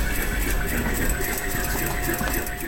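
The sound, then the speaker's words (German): Sewing machines whir in a textile workshop, a university clothing lab where students are busy stitching, with a steady, unbroken mechanical hum and rapid rattling that continues throughout. “Im Konfektionslabor wird eifrig genäht.”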